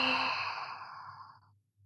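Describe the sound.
A single long sighing exhale during a guided relaxation breathing exercise. It is soft and breathy, starts at its fullest and fades steadily over about a second and a half, then falls silent.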